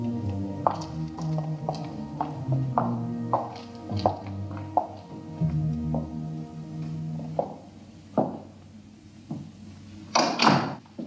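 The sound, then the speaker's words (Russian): Apartment door closing: a series of soft knocks and clunks over a low steady hum, ending with a sharper, louder bang near the end. “Та берет свой сверток, и они входят в квартиру. Дверь закрывается.”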